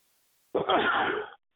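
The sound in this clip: A sneeze bursts out once, a sharp, breathy blast lasting under a second, heard alone.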